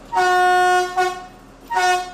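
A train whistle sounds in Quedlinburg to signal departure: a long, steady, bright blast, a short toot, then a third medium-length blast, all on the same loud, harmonic pitch.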